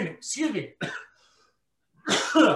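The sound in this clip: Rough, raspy throat clearing after eating wasabi peas comes in a few short bursts, with a quiet pause before a final louder one.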